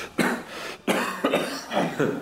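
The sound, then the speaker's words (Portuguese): Weak, strengthless coughing after a laugh: a few short, breathy bursts in quick succession at moderate loudness, with no other sounds. “A entidade riu e logo tossiu sem forças.”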